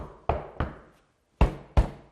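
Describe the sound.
Knocking: four sharp, hollow knocks, a pair followed by a short pause and then another pair, each one ringing away quickly.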